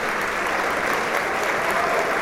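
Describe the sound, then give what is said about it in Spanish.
Sustained audience applause after a tango concert at Teatro Nazas, a thick, even wash of clapping that stays loud and steady throughout with no voices. “Siguen los aplausos. Y la emoción de estar aquí en el Teatro Nazas.”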